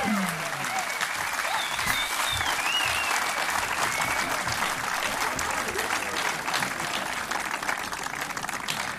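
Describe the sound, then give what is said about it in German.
Concert audience applause welcomes a performer on stage: dense, steady clapping that stays loud and unbroken throughout. “er kommt nur hoch bei tosendem Applaus. Also, wenn der jetzt kommt, begrüßt bitte mit mir Jonathan Böbel.”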